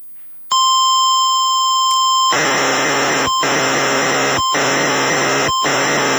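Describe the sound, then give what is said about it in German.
Software data broadcast over the radio in the 1980s on Radio DR2. A sudden steady high tone gives way to a loud, harsh wash of hissing data noise, cut by three brief dropouts at regular intervals. “über Radio DR2 gab es dann so eine Spezialsendung nur für Software, wo dann wirklich über einige Jahre Software verteilt wurde auf diese Art und Weise. Und wie sich das genau anhört, das hören Sie jetzt”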